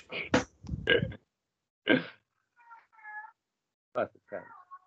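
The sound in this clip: A cat meows a couple of times, drawn-out tonal cries that stand apart from short bursts of human voice around them.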